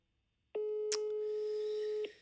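A telephone ringback tone while calling a mother: one long, steady, mid-pitched tone lasting about a second and a half, with a brief click partway through.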